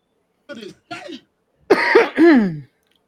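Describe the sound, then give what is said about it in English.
Coughing from someone with a cold: two short, dry bursts are followed by longer, louder voiced hacking that sounds strained and harsh, alone without talk. “Nah, I just got a cough, my bad.”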